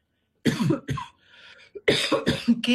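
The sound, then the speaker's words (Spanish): Allergy-triggered coughing, a few harsh, throaty coughs in quick succession, then a short, quieter breathy pause before another cluster of rough coughs, with no speech. “alergia, como el caso mío, que tengo tos por alergia, que puede estar provocada por polvo en suspensión”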